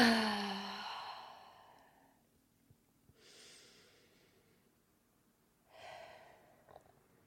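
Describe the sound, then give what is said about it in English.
Slow, deep breathing: a long, airy sighing breath fades away, then two softer drawn-out breaths follow, separated by quiet pauses, with no talking. “Everyone can take a breath with me. Breathe in and breathe out.”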